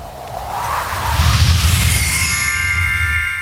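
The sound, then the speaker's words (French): A small bell rings with a bright, sustained tone in the second half, heard over a loud, continuous rushing whoosh. “J'entends des choses qui se passent derrière. La clochette de l'audace qui retentit à la fois.”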